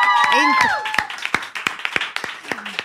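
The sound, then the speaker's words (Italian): Audience applause follows a brief voice at the start, breaking into scattered, crisp handclaps that come in an uneven, sparse rhythm. “Eroico, così a freddo, difficile, un altro applauso.”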